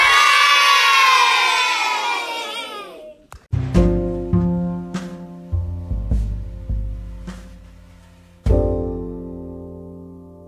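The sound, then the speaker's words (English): Schoolchildren at Moore Magnet Elementary School shout a loud hooray together in the main lobby, a drawn-out cheer that sinks in pitch over about three seconds, followed by a series of ringing struck notes that fade away. “So on three, we will just do a hooray. All right, you ready? One, two, three.”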